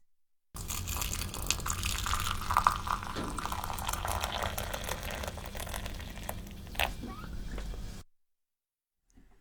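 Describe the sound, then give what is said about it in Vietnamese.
Hot water is poured into a small teapot holding tea leaves, making a steady, splashy pour that lasts about seven seconds and then stops abruptly into silence. “Cho lá trà và một ấm trà nhỏ rồi đổ nước nóng vào.”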